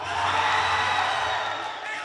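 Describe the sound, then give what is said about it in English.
Students and family members cheering at a school basketball tournament in a gym: a continuous mass of whoops and shouts, fairly loud and even throughout, easing slightly toward the end. “Students run around in yellow and orange pinnies as they make shots while their classmates and some family members cheer them on.”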